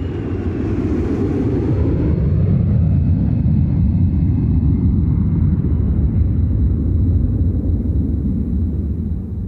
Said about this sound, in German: Als das Flugzeug auf der Schweizer Piste aufsetzt